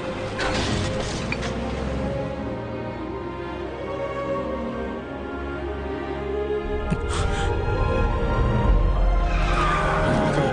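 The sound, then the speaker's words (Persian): A van driving away, heard as a continuous rumble of engine and road noise that holds steady for the whole stretch, with a few brief sharper bursts rising above it. “ون میره.”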